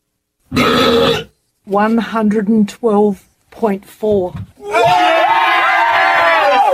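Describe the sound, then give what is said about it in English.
A world-record loud burp played back: several loud, deep belching bursts separated by short gaps, ending in one long, sustained belch, with voices also present. “Lions burp! I got to play that one more time. Yeah. That was one of the greatest world records I ever heard. That's making me smile so much. I say, let's play it again.”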